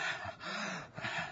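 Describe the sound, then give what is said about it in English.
A man pants heavily while catching his breath, a few breathy, rasping gasps in and out, fairly soft and unaccompanied by speech. “Fine. Just let me get my breath.”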